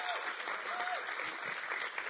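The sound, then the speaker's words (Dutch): Applause from an audience welcoming a student speaker at a school event, a faint but steady patter of many hands clapping throughout the short stretch. “Geef haar even een applaus.”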